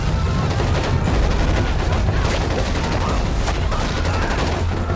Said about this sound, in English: The army enter the village with weapons blazing.